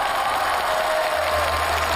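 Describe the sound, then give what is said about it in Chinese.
Applause welcoming guests onto the stage at a micro-exhibition event in Luzhou: a steady, dense wash of clapping that holds evenly throughout, with no voices. “那接下来让我们用掌声欢迎各位嘉宾，跟大家打个招呼，自我介绍一下。”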